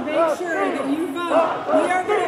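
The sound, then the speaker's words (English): A political rally crowd chants a slogan, with many voices shouting together in a loud, continuous, rhythmic roar that rises and falls with each repetition. “But she was drowned out by a chant of "Stop the Steal."”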